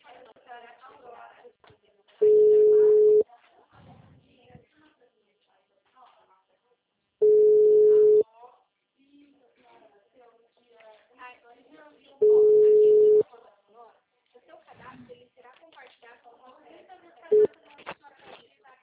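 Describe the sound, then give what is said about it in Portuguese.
Telephone line tone after a dropped call: three steady, low electronic beeps, each about a second long and evenly spaced, then a brief fourth one. A woman talks between the tones. “Oi, Alda, a ligação caiu, né?”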